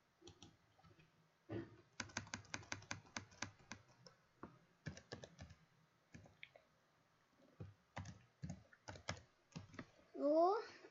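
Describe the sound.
Computer keyboard typing as a command is entered, with many crisp key clicks in quick, uneven bursts separated by short pauses, heard alone.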